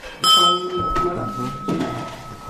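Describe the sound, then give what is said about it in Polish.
A dinner gong is struck to call people to a meal: one bright metallic hit whose steady ringing tone lingers under people talking. “To ten gong to oznacza?”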